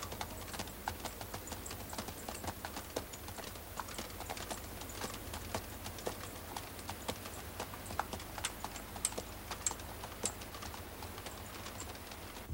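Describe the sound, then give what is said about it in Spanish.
Hooves of a horse and a donkey clip-clop as two riders move off on their mounts. Many light, quick hoof strikes form a steady, faint patter. “Sancho y Don Quijote se alejan del lugar a lomo de sus monturas.”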